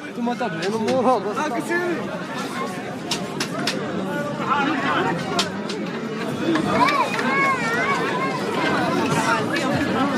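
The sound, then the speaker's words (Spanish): Bustling crowd chatter fills a busy plaza lined with food stalls under awnings and tents. Many overlapping voices form a continuous, fairly loud babble with no clear individual speech. “lo que queríamos recoger es efectivamente el sonido de esta plaza que bulle de gente y de establecimientos donde comer, con sus toldos, sus carpas”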